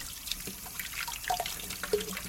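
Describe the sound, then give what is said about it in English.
Hands being washed under a running tap, heard as irregular faint splashes and drips scattered over a soft background wash of water, with no talking. “What do we do in the meantime? I don't know. Wash my hands.”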